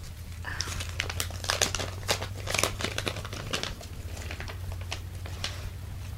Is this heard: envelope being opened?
yes